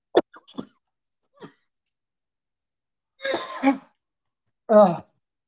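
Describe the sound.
A person coughs and clears their throat in a scattered series. A few short, sharp bursts come first, then two louder, rougher coughs after pauses.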